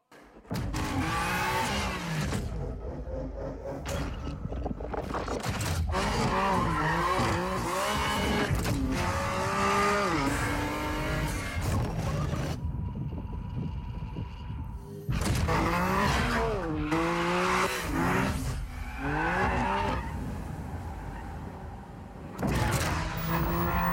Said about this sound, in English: tonight we're going to talk about drifting. And when I think of drifting, there's something that comes to my mind. Check out this video.